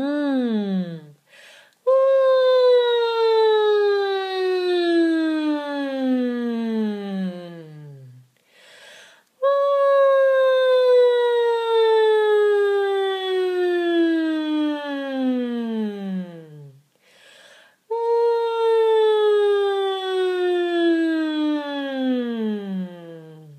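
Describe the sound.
A voice imitates a siren on a hummed "ng" sound: three long, sustained glides, each falling steadily from high to low pitch, separated by short breaths.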